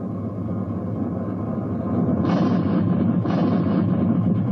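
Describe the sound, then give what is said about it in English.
Two torpedo hits on a ship in a video game battle: two heavy booming impacts burst out over a continuous low rumble of gunfire, the second following about a second after the first. “We were just hit by 2 torpedoes.”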